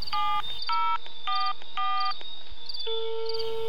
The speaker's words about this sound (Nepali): phone लाग्यो